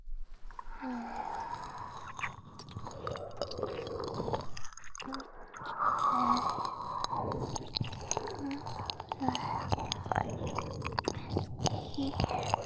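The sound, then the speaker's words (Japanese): Wet ASMR ear-licking sounds: soft, continuous squishy smacks and slurps close to the microphone, with no clear pauses. “私も耳なめ再開。”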